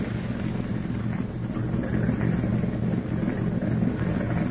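A motorboat engine runs near a pier with a low, steady purr: a continuous rumble with no clear change in speed and no voices.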